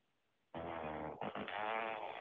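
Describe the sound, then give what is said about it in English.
Squelchy fart sound effect played by a smart speaker, a fairly faint, buzzy, sustained blast lasting nearly two seconds with a brief break partway through, heard alone without talk. “Alexa, fart.”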